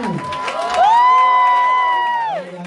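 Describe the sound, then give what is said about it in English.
Cheering for a young child model, led by one long, loud whoop that rises in pitch, holds steady and then drops away, over a livelier crowd at the start. “So we're cheering on your baby right now.”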